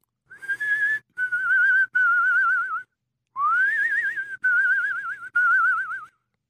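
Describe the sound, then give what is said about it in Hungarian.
A tune is whistled softly from upstairs in six phrases with short breaks between them. The tone is clear and warbling with strong vibrato, and the second group of phrases opens with an upward slide. “Föntről egészen halkan ugyanazt a dallamot hallotta fütyülni.”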